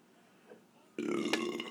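A single loud, throaty burp from a person taking shots bursts in abruptly halfway through after near silence, then rumbles on to the end.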